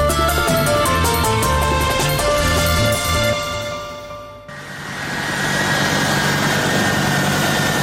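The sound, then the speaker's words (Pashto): A US Air Force military aircraft's engines roar at Kabul airport. It is a dense, loud droning rumble with steady tones that swells up and holds through the second half, after a tonal passage fades out. “دا د امریکا د هوایی ځواک د هغې پوځي الوتکې غږ دی چې تیر کال د زمری یا اسد میاشتې 15 ترې د کابل په هوایی ډګر کې لږ تر لږه درې کسان راولوېدل او مړه شول.”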